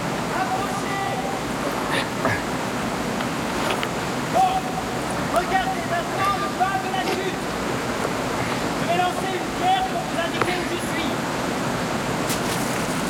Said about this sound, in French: Ici, derrière la chute d'eau! Derrière la chute d'eau? Comment derrière la chute d'eau?